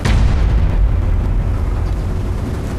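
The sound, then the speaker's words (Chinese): Loud, sustained gunfire and blast noise from a war drama as soldiers open fire: a dense, rumbling roar heavy in the low end. It holds steady for about three seconds without clearly separate shots and fades slightly toward the end. “开枪，开枪，打呀！”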